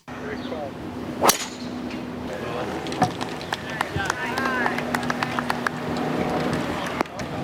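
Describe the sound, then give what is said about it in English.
Bryson DeChambeau hits a golf tee shot: one sharp, loud crack of the club striking the ball, followed by a scatter of quick clicks and people talking. “I just thought I might set the scene with just a little bit of audio that I've pulled down the pipe here, if I can work this new technology appropriately. Let's just have a listen to what Bryson DeChambeau sounds like on the tee.”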